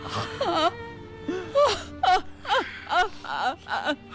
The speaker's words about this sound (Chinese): 妈，您先别哭。